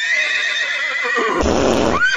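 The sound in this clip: A horse at a parade gives a loud, long harmonic whinny that wavers in pitch, then breaks into a rougher, noisier stretch before a final rising squeal.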